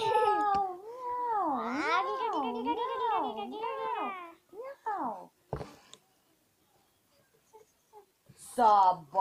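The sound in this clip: A cat meowing: first a long, drawn-out yowl whose pitch wavers up and down repeatedly, then a few shorter meows after a pause.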